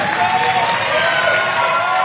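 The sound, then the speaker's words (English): Church audience clapping as people take their seats, a dense, continuous wash of hand claps mixed with crowd voices, loud and steady throughout. “You may take your seats as you clap. Oh, clap for your wonderful state of the art church.”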